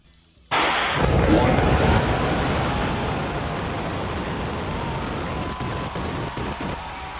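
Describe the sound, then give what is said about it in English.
A SpaceX rocket explodes. A sudden, loud blast gives way to a long, dense roar with crackling that fades slowly. “Speaking of transportation failing, let's watch the moment one of Elon Musk's rockets blow up.”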